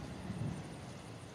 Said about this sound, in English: Has it started storming? You see a bit of ripple of lightning through the sky through a cloudy day as the wind kind of whips, but no rain.